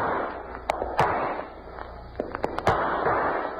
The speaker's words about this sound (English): Get your gun working. I see them now. Five of them up there in those rocks. Now, let's make it three of them.